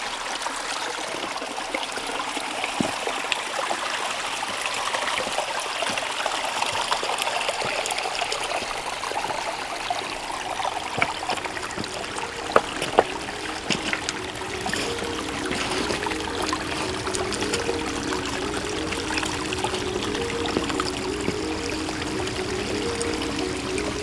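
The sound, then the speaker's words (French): Clear, refreshing water trickling through a gorge, a steady continuous babbling stream with a few brief louder splashes partway through. “Où ruisselle une eau limpide et rafraîchissante.”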